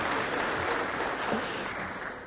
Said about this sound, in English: Round of applause for our farmers.